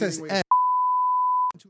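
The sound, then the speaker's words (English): A censor beep covering a word: one steady, mid-pitched tone lasting about a second, cutting in sharply between stretches of talk and ending just as abruptly. “We'll beep that out.”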